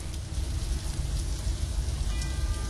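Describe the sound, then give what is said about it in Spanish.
Steady rain opens the intro of a song: a dense, continuous hiss of falling drops at an even level throughout, with no voices. “Lluvia.”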